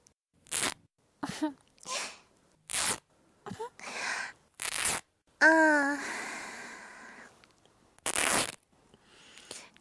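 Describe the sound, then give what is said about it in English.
Clothes are cut and ripped off, heard as many short, sharp tearing and snipping bursts spaced apart. One longer rip midway carries a brief vocal sound. “Don't worry, I'm not going to cut your body open, just your clothes. I'm just going to rip it all off.”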